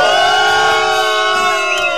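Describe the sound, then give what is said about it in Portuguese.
Crowd booing: a loud, sustained chorus of many voices holding a long, drawn-out tone, with no talk over it. “Devidamente vaiada da maneira que ela merece.”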